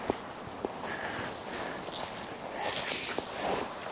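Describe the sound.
Faint footsteps through a forest of freshly fallen, partly delimbed trees, a few soft crunching steps with light rustling of debris between them, quiet and unhurried.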